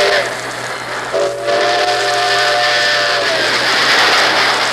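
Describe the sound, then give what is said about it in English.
A steam train whistle sounds on the rails as one steady, sustained blast of about two seconds. Constant rumbling train noise continues under it and after it stops. “As a bullet seeks its target, shining rails in every part of our great country are aimed at Grand Central Station”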